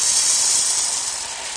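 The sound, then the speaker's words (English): Material being poured into a container, a steady bright hissing rush that holds evenly and eases slightly toward the end. “I'll pour it all in.”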